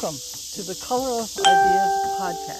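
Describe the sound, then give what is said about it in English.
Cicadas chirp at a state park during a walk, forming a constant high, hissing drone that runs beneath a person talking throughout. “I guess you can hear the cicadas chirping.”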